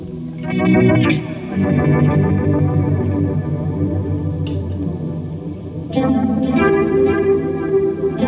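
Electric guitar run through a chorus pedal with its depth increased, alongside a Dispatch Master effect, giving heavily processed, swirling sustained chords. Loud strummed attacks open the passage and return near the end, with no voices.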